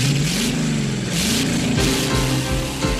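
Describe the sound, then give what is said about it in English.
Car engines rev in a drag race near a steel-arched bridge: a loud mid-pitched roar whose pitch climbs in a few repeated sweeps as the engines accelerate, with no voices. “Remember that drag racing scene in Grease?”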